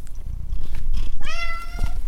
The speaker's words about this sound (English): I'm Gary Niederhoff, and that's my cat, and he's taken up hunting